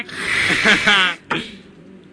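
A person imitates a lion's roar with a rough, breathy growl lasting about a second, followed by a shorter burst of breath.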